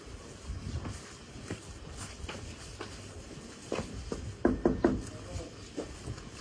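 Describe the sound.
Knocking on a door, a man rapping a few sharp, hard knocks over steady low background noise, with no voices.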